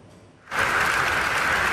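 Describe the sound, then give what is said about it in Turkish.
Scientists at a pancreatic cancer meeting in Istanbul break into applause after a short, quiet lead-in. Dense clapping then swells quickly and stays full and even. “Bu ay tıp dünyasında çığır açacak pankreas kanseri ilacının sonuçlarını bilim insanlarının dakikalarca alkışladığı bu görüntülerle öğrendik.”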